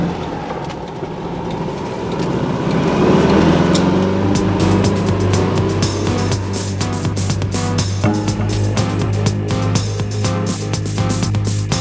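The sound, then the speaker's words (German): A yellow VW Beetle's engine roars at full throttle as the car speeds away from a harbor area. It makes a loud, steady low drone with sharp clicks and rattles layered on top. “als sie in Bobs gelben Käfer das Hafengelände mit Vollgas verlassen hatten”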